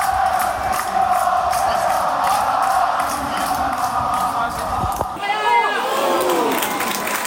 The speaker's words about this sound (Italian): E il pubblico risponde eh, alle iniziative della squadra.